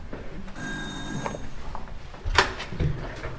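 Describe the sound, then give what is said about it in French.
Doorbell ringing at a fourth-floor apartment: one bright, buzzing ring held for about a second, followed by quieter shuffling and a few soft knocks and bumps. “Sonnerie. On va voir si les gens sont là.”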